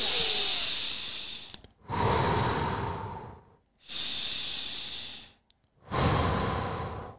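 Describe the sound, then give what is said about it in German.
Deep breathing in and out, with four long, loud, breathy breaths following one another in an even rhythm, separated only by brief gaps. “Ich atme 5-mal tief ein und aus, ohne Pause.”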